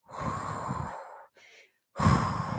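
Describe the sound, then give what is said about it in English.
Heavy breathing of someone recovering after a cardio workout round: two long, loud, breathy exhales with a short, fainter breath between them, heard alone without talk. “Bring it back down to a nice slow pace. Absolutely brilliant. Breathe for me now.”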